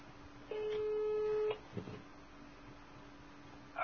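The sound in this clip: A single steady, mid-pitched tone sounds on a phone line as a call is cut off, lasting about a second over faint line hiss and followed by a brief click.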